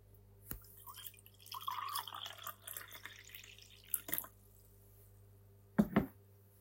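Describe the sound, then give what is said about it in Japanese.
Liquid pouring into a glass during a drinking challenge. A splashy, gurgling pour lasts about a second and a half, followed by a few sharp knocks and clinks. No talk. “次を注いでいきますね。”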